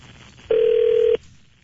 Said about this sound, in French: Alors, on est prêt à appeler. Oui. Les gens en train de composer.